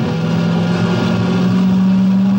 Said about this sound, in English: Then slams the transmission into drive and floors the accelerator.